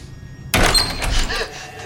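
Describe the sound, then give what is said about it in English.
A door along an empty corridor lets someone through with one heavy thunk, followed by a short, fading rattle. “She passes through a second set of doors, anxiously eyeing the next empty corridor.”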